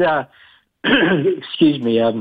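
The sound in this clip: Throat clearing, rough and voiced, comes in loud bursts: a short one, a brief pause, then a longer rasping stretch with a wavering tone.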